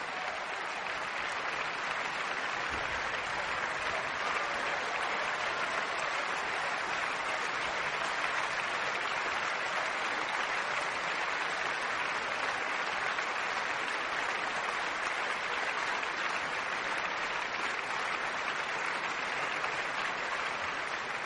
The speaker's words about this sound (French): Et malgré la conclusion pianissimo, vous entendez les exclamations et la ferveur du public.